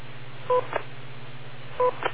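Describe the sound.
Two short dual-tone beeps on a ham radio transmission, spaced about a second apart over a steady low hum, each followed by a brief burst of static.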